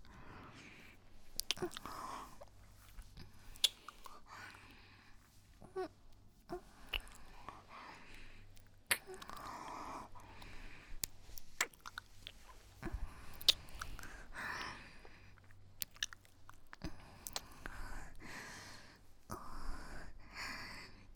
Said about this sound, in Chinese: 今天的草莓买对了，这样老师尝尝。